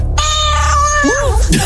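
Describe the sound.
A cat's meow, one short drawn-out tonal call that bends in pitch at its end, loud and brief.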